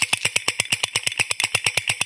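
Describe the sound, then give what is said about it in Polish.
Tractor engine chugging in rapid, even pulses: a loud, steady put-put with bright, high-pitched overtones, with no voices. “Zawozimy traktor do budynku gospodarczego i wracamy na swoje miejsca.”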